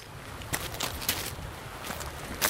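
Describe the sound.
Footsteps on a rocky hiking trail along a rock ledge in a Black Forest gorge: several irregular, moderately loud steps and scuffs over a constant background hiss.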